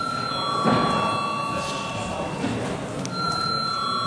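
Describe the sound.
A steady ringing tone summons deputies to a vote in parliament. It holds at one even pitch for several seconds over a low background of murmur and shuffling.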